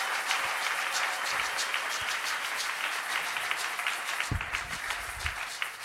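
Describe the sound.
A church audience applauds in a steady, dense patter of many hands clapping. The clapping stays at a fairly even level throughout without a clear break.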